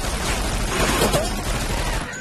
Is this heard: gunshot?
yes